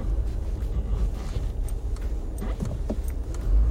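Steady low rumble of a car being driven, with engine and road noise throughout and a few small clicks and rattles; no one speaks.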